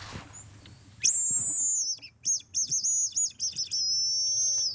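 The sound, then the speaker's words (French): A tit calling in response, with high, clear whistled notes: a rising then sustained tone, a quick run of short repeated chirps, and a final long held whistle, alone without talk. “Eh oui, et c'est la mésange qui nous répond.”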